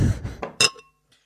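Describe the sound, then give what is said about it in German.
Glasses clink in a toast after two Scotch whiskies are poured. A few knocks and taps build to one bright, ringing clink whose tone lingers briefly before fading to quiet, with a faint final tick. “Also ich gieße jetzt gerade zwei. Ah, wunderbar. Und zwar The Ardmore und Highland Park. Prost.”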